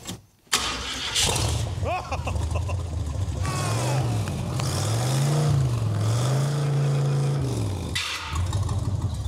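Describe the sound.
Engine of a 1990s vehicle cranks and starts after a short silence, then settles into a loud, continuous running note that is revved a few times, its pitch swelling up and dropping back with each rev.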